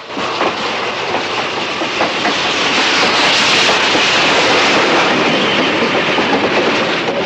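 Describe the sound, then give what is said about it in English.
Train crawling past on the rails, a continuous loud rumble and clatter with hiss, steady throughout with no clear break or stop. “The Reno gang are poised behind the dirt mound as the train crawls past.”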